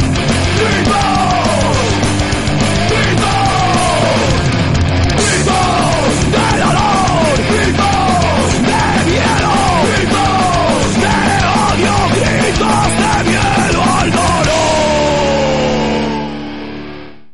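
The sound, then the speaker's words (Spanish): A crowd at a live Republic celebration evening yells, with many voices shouting and bellowing together in a loud, sustained roar for about sixteen seconds before it tails off. “¡Gritos! ¡Gritos!”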